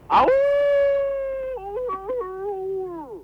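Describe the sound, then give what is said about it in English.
A person imitates a wolf howl: one long sustained, tonal voice that holds steady, then wavers and dips in pitch midway before sliding down at the end. It stands alone without talk. “But perhaps I'm getting people to howl like a wolf tonight.”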